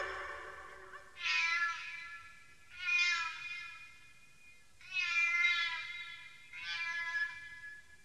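A cat meows four times at an even pace, each call a drawn-out, mid-pitched meow of about a second, with quiet pauses in between.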